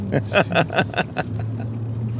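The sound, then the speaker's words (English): A car merging on a highway gives a steady low engine and road hum. It starts under a person talking and then continues alone. “Trust me, I am driving safely, dear listener. Now I've got to negotiate this merge here.”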